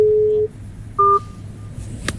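Telephone keypad tones as a number is dialled: two clear, steady electronic beeps in sequence, each held briefly, over a faint low background hum with no voices.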